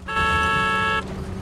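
A car horn sounded frantically by a car racing along a dusty road: one loud, steady honk lasting just under a second, with a low engine rumble underneath.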